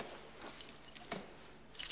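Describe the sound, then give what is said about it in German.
Keys jingling on a ring that holds an apartment door key marked with green: faint metallic clinks early on, then a brighter, louder jingle right at the end. “Wenn ich nachher nach Hause gehe und meine Wohnung aufschließen will, dann brauche ich dazu den richtigen Schlüssel.”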